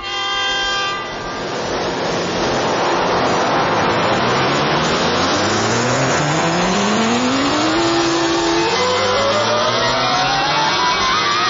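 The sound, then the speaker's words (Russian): Dense, loud roar of many cars speeding past in a city, a continuous rushing wash of engine and road noise with a tonal engine whine gliding upward in pitch through the second half, no voices. “Сколько автомобилей? Куда они все мчатся?”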